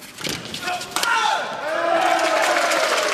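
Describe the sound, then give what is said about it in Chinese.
Spectators in a sports arena roar in support of the Chinese team during a serve, a dense, steady wash of crowd noise that swells slightly after a sharp knock near the start, with a few drawn-out falling tones weaving through the din. “现场给中国队加油助威的声音响彻整个体育馆”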